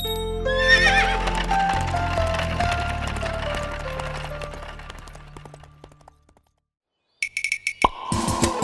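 Horses of a horse-drawn coach: a long, loud whinny with a falling pitch fades away, then after a short silence come many rapid clip-clopping hooves, sharp and quick.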